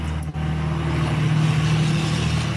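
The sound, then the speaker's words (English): A Duramax diesel truck drives down the road in front of a porch, producing a loud, steady, low engine rumble and drone that holds throughout. “Meanwhile, I've got a Duramax diesel driving down the road in front of my porch here.”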